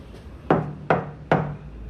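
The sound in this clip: Three sharp knocks on an apartment door in a graffitied corridor, evenly spaced and loud, each with a brief woody decay and no voices.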